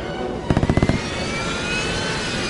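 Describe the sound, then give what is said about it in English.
Aircraft gunfire firing tracer bullets: a quick burst of sharp, rapid pops lasting under half a second, set against a continuous airplane engine drone with a thin steady whine. “Those are tracer bullets. He's shooting at us?”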